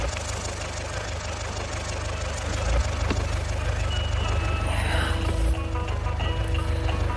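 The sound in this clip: A taxi engine idles in a steady, low, rumbling drone with a faint knocking texture. The level stays even throughout, with a slight swell partway through.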